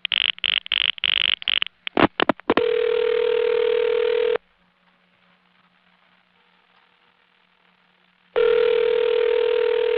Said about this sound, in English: That lets you hear the outpulsing.